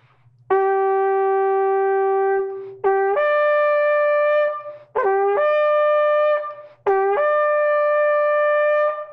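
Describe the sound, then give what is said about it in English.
A kosher shofar made from kudu horn is blown in four long, steady blasts, each a loud, brassy tone rich in overtones, the last three starting with a quick upward break in pitch. “This is also a shofar, but it is from the kudu animal. And this is also a kosher shofar. And it sounds like this.”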